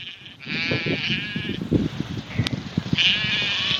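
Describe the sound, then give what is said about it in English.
Herdwick lambs bleating in the Cumbrian hills, a few drawn-out, wavering high bleats rising over a steady rush of wind, with softer low knocks and rustles in between. “And here's a little sound. This is of Herdwick lambs, the breed he raises.”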